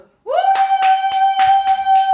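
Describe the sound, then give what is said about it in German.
A studio audience clapping and cheering: a sustained whooping cheer that rises at the start, with a handful of slow, evenly spaced claps beneath it. “Jetzt klatscht und jubelt.”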